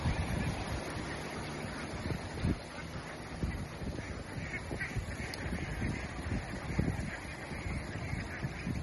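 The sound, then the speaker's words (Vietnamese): Faint, scattered duck quacks in an open countryside field, over a steady background hiss. “Ủa vịt nó đi ra ngoài rồi kìa chú ơi. Vịt đi ra ngoài hai con rồi kìa.”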